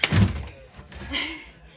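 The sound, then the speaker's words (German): A trunk kicked through a cabin door gives one solid, low thud at the start, followed by faint, quieter rustling. “Sie haben den Koffer durch die Tür getreten.”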